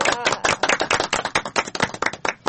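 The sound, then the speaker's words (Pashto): A group claps for a correct quiz answer, a loud, brisk run of dense, overlapping handclaps that keeps going steadily without a pause. “بالکل سم ځواب دی راکړ، چک چک ورته وهئ.”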